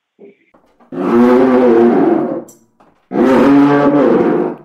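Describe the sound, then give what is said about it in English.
Two long, rasping lion-like roars made by pulling a leather cloth along a violin-rosined string on a trap drummer's sound-effect instrument. Each growling roar is loud, sustained and separated by a brief pause with faint scraping. “they would put violin rosin on the string, and when you pull the leather across the string, you'd get the roar of a lion.”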